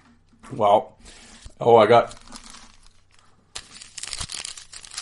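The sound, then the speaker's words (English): A pack of 1991–92 Upper Deck hockey cards is torn open, its wrapper giving a bright crinkling and tearing rustle in the second half, after two short bursts of voice. “More hockey cards. This is the gimmick now. It's like I open hockey cards at the start of every episode.”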